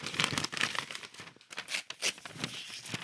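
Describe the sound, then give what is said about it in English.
Paper notes being torn up by hand, heard as many crisp, crinkling rip-and-rustle bursts in an uneven rhythm, fairly loud, with no talk. “I made sure I tore up my notes like I was tearing up mail. And here are my show notes and discussion.”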